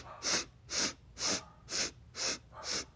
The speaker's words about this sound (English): We're going to do 8 inhales through our nose quickly.